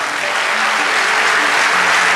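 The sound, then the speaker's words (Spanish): Dense, steady applause from a church audience fills the whole clip at an even, loud level, with no voice clearly standing out. “Vamos, dale ese aplauso”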